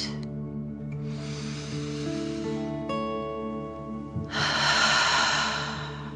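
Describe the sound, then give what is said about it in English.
Deep, slow breathing in and out done as a calming dragon-breath exercise: two long, hissy breaths rise over sustained, soft musical tones, the second breath louder than the first. “Again, deep dragon breath in and out.”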